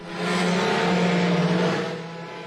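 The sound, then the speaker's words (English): Engines of IndyCar race cars roar at the start of the first IndyCar race in Washington, D.C., a dense, steady drone that swells in quickly, holds loud and fades slightly at the end. “The president getting the party going with a lap of honor in the presidential limousine known as the Beast before waving the green flag to start the first ever IndyCar race in Washington, D.C.”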